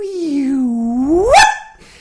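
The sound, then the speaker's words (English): A human voice imitates a lyrebird's call: one sustained, whistle-like tone that dips slightly, then sweeps sharply upward in pitch at the end before cutting off. “When you're walking around and you hear the lyrebird, what you hear is something like,”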